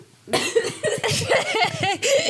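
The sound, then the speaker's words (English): Coughing and choking on a breath: harsh, strained bursts with rough voiced tones that run together almost without a break after a silent start. “I just took a big breath to prepare myself to say Rafe Fiennes, and I choked. Couldn't do it.”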